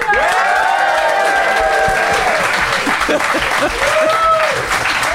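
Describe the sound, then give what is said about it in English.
A live studio audience applauding to vote, producing dense, loud, steady clapping throughout, with voices heard over it. “I would like you to applaud now.”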